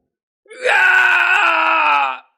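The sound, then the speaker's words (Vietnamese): A man screams in agony in a dramatic sound effect, a single loud drawn-out cry lasting about two seconds. It rises briefly at the start, then holds a steady strained pitch before stopping abruptly, with nothing else heard. “Tên thái cổ vương kia kêu lên thảm thiết”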